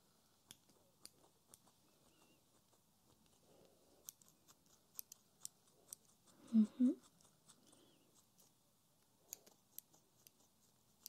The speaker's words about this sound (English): I'm just going to trim all the way up here where I've brushed the eyebrows up just to make them a bit more even